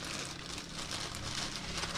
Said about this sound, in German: können wir das hier einfach schön aus der Tüte raus verteilen über dem Flammkuchen.